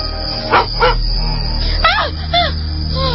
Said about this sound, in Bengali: আরে আরে, কুকুর তো, একটা কুকুর দেখে ভয় লাগাচ্ছিস।